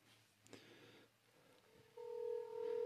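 A telephone call is being placed: after a quiet stretch with faint taps, a steady electronic phone tone starts partway through and holds to the end.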